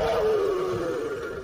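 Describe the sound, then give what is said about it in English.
A lion's roar layered beneath a crash cymbal in electronic drum sound design gives a sustained, loud, gritty tone that slowly sinks in pitch over a broad noisy wash, heard alone without voices. “a lion's roar as a crash cymbal underneath it as well”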